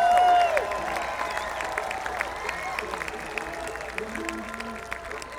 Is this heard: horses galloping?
no